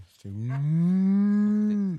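A cow moos in a mountain pasture: one long, deep, steady bellow that holds an even pitch for nearly two seconds, then stops abruptly, with no other sounds around it.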